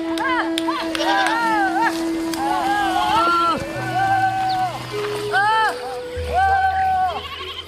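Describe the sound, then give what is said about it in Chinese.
A flock of sheep bleats as it is herded across a hillside toward a cooler spot, many wavering, overlapping calls that rise and fall, with a steady low tonal drone beneath. “已经放了3小时羊，山坡上残存的凉气渐渐散去。大姐钟善林和姐妹们要把羊群赶到凉快的地方。”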